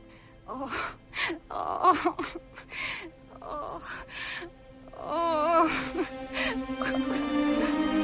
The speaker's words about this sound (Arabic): صحيت مفزوع من النوم وأنا بسمع صوت واحدة بتعيط، حد بيتألم وبيعيط.